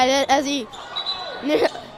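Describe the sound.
A basketball bounced by the referee during a game, a short thump heard beneath a commentator talking steadily.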